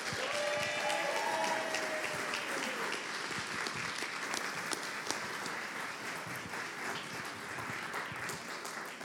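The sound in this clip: An audience in Conejo Valley applauds to welcome a guest speaker, with dense, loud clapping that holds steady and unbroken for the whole stretch.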